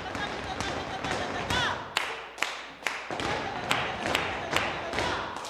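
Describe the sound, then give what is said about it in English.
Flamenco footwork in a dance studio, where an instructor leads a group of kids: sharp percussive stamps and heel strikes land in quick, uneven bursts, with many crisp hits over a busy background. “An instructor is showing a studio full of kids the classic percussive footwork.”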